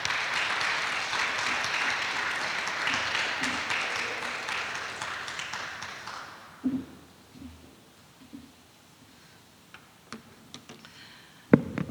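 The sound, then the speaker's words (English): An audience at a museums conference lecture in Melbourne applauds to welcome a speaker, a dense burst of clapping that thins and fades out after about six seconds, leaving near quiet with a few faint knocks. “please put your hands together to welcome Laura”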